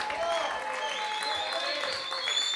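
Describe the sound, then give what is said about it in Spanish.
Audience applause at a live band concert while the guitarists, bassist, drummer and singer are introduced: a steady, dense wash of clapping that holds at an even, fairly loud level throughout. “Gonzalo De Filippo, el Difi, por favor, fuerte aplauso.”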